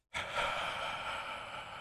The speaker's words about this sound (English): Then you loosen your jaw and exhale through your mouth in a slow, steady stream. You need to be able to hear yourself do this.